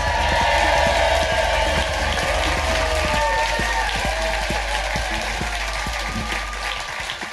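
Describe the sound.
A theatre audience at the Leicester Square Theatre applauds and cheers, dense, loud, sustained clapping with whoops rising over it throughout.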